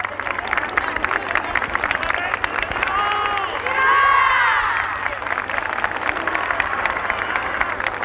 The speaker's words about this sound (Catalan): 1924 va ser triomfalment coronada i declarada mare, patrona i reina del nostre poble, que en estos moments, 50 anys després i foll d'entusiasme, està clamant la altra vegada.